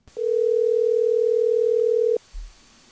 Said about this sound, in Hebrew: יאללה, תעלה אותו על הקו. הנה אני מחייג.